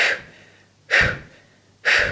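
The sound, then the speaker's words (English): Three short, sharp exhales, forceful breaths pushed out with the stomach muscles during a breathing exercise. Each is an airy, loud burst that fades quickly, evenly spaced with quiet gaps between them. “So big exhale out, using the stomach muscles to contract the breath. So big, short breaths.”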